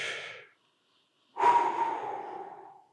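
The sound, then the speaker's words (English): A person's deep breath in and out: a short breath, a pause of about a second, then a longer, louder breath that slowly fades, with no talking. “take a deep breath.”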